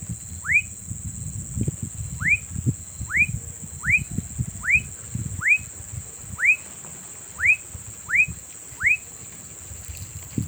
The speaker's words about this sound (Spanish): Lactátilos fuscus, cantando en un matorral cerca a un cultivo de maracuyá en la vereda La Yaya, finca Zarzamora, municipio de Carepa,